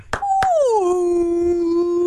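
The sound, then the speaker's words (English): A human voice imitating a whale call: after a couple of brief clicks, a long, sustained moaning tone glides downward in pitch and then holds at a low, steady note. “That is the sound of a whale.”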